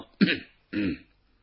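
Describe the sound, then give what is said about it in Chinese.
A storyteller imitates two short, dry coughs as an official clears his throat while holding a written memorial, the two bursts spaced about half a second apart, followed by quiet. “这文官捧着这表彰啊，站在这会儿干咳嗽两声”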